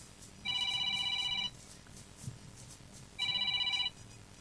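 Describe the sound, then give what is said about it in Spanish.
A telephone rings with an incoming call: two bright electronic ring bursts, each about a second long, separated by a pause. The tone is steady, warbling and high-pitched, with no voices between the rings. “Vamos, están llamando.”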